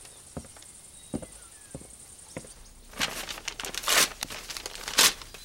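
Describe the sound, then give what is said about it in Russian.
A general tears up a sheet of paper: a few light ticks and rustles first, then loud crackling rips in several bursts, the strongest near the end. “Алёша видит, как генерал рвет принесенную капитаном бумагу. Генерал бросает на стол порванный документ.”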